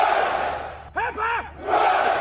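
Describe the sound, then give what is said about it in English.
A crowd cheers for the Queen. A loud roar runs before and after a single voice that shouts out in the middle. “Three cheers for Her Majesty the Queen! Hip hip! Hip hip!”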